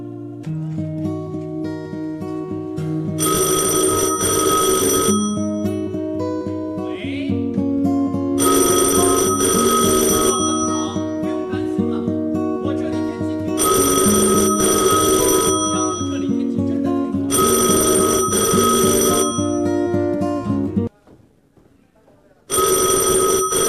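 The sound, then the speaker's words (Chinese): Telephone bell ringing in repeated long bursts separated by short gaps, loud over steady musical accompaniment, with a brief drop in sound near the end before the ringing resumes. “所以连电话铃声显得特别的柔和。”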